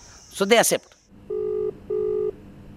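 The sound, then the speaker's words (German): A telephone call to a journalist being placed: a short burst of voice, then two even, steady ring tones of equal length separated by a brief gap. “Ein Anruf bei Namita Bhandare”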